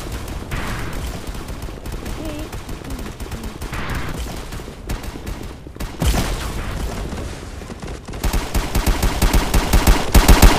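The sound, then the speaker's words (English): Rapid gunfire from guns in a video game: dense, continuous bursts of machine-gun-like shots with no pause, growing louder and busier toward the end. “Watch me shoot you. Watch me shoot you. Do you know I can shoot you? Watch me shoot you.”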